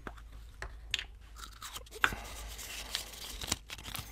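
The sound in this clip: Faint crinkling and rustling as a lot is drawn by hand from a bowl during a cup draw, broken by a few sharp clicks and rattles, with no voices.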